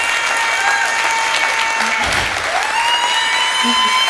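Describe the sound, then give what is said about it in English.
A church audience cheers and applauds during a sermon, sustaining a continuous wash of clapping with voices mixed in at an even, fairly loud level throughout. “You cheered for the Broncos louder than that.”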